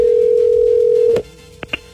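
A telephone line tone sounds while a call is being placed: a steady single-pitched hum that cuts off after about a second, followed by two faint clicks in near silence.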